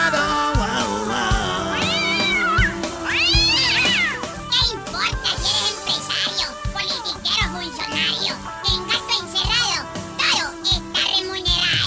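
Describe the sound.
A cat meowing sound effect: several loud, drawn-out meows whose pitch rises and falls, set against a busy layer of other sounds.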